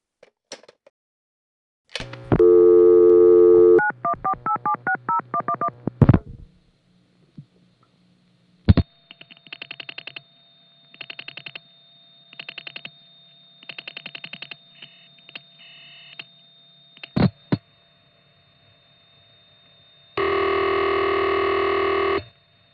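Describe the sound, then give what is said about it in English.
Telephone signalling tones from a mid-distance call of 25 to 100 miles, Lynbrook, Long Island to Rhinebeck, New York: a loud buzzing tone, a quick run of dial beeps and clicks, pulsed tones, then a final loud steady tone. “Here's a call from Lynbrook, Long Island, to Rhinebeck, New York.”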